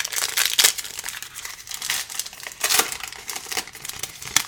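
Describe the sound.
Crinkling and tearing of wrapping as a box of 2022 Elite Extra Edition trading cards, holding a single five-card pack, is opened: dense crackling rustle with two louder bursts, near the start and midway, and no talk.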